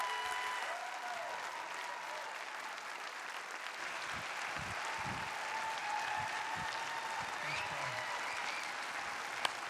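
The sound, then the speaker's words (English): An audience applauds to welcome a speaker at a gathering, a faint, steady patter of clapping that carries on evenly for nearly ten seconds. “So would you please put your hands together, give a warm homecoming.”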